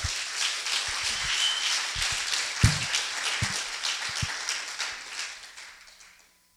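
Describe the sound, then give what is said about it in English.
Congregation applause given as a clap offering during a church service, a sustained wash of clapping with a few low thumps, gradually thinning before fading out at the end. “If you're gonna give a clap offering to the Lord, I want everybody to like blow it up right now.”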